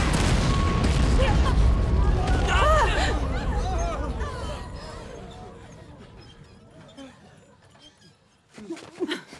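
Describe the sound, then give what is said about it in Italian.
An explosion: a heavy, rumbling blast that slowly fades over several seconds while voices cry out, then near quiet before a brief noisy burst at the end. “Un'esplosione! È stato laggiù! Sembra che sia caduto qualcosa!”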